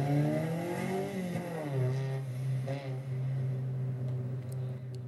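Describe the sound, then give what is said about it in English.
A race car on street tires accelerates hard away from the start line: a loud, continuous, buzzing engine note that drives on steadily for several seconds without pause. “zooming away from the line at a rapid pace.”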